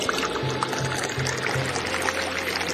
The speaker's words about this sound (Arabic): خلص خلص صب لك كاسة هيك انت مرتب